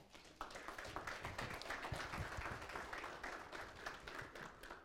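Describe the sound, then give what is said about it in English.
Applause from a church audience welcoming a guest minister to the pulpit: sustained, even clapping that starts abruptly and holds at a steady level throughout. “Please give Brother Lewis a warm welcome.”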